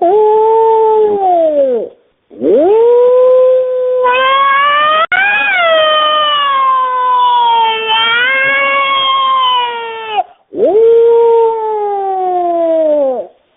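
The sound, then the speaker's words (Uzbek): Wolf howling: a few long, drawn-out harmonic howls that rise and fall in pitch, with overlapping voices in the middle stretch and short gaps between the calls. “Bo'ri degan bir hayvon bo'ladi. O'sha nima, bu bo'rini ovozi mana shunday bo'ladi.”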